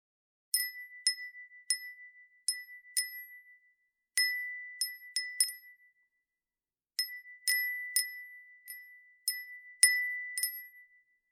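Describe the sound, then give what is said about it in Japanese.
A small bell tinkling in the wind: bright, high pings in irregular clusters separated by brief silences. The sound is quiet, and each chime rings out for a moment after it is struck. “どこかで聞いた涼しげな音。照りつけるような景色の中に優しく吹いてくる鈴の音。”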